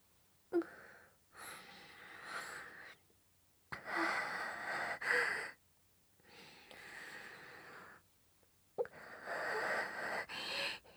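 A person sniffs and breathes hard through the nose while smelling something held up close, in about five long, rough, noisy breaths separated by short pauses.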